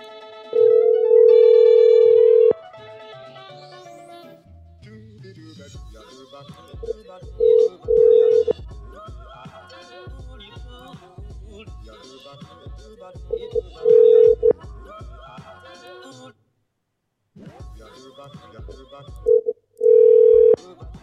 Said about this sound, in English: Dialing number machine. Go. Activate.